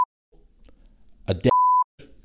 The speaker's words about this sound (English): I'm actually going to say it, but I'm going to beep it out.